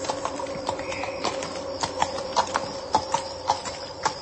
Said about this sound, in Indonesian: semakin jelas ku dengar suara langkah kaki kuda itu semakin mendekat